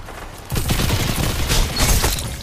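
Rapid gunfire in the video game Destiny 2 during a Crucible match, a dense, loud stream of repeated shots that starts abruptly and keeps going steadily, with no talk over it.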